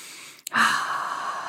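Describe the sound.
A single deep breath is taken after a brief click, a soft, airy rush of air that swells quickly and then trails off steadily.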